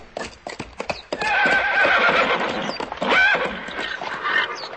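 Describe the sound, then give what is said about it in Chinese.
Hoofbeats clatter briefly before a horse lets out a long, loud, wavering whinny as a knight rides it past outside a palace, with clip-clop continuing beneath the neigh. “而在王宫外某个地方，刚好一名骑士骑马经过。”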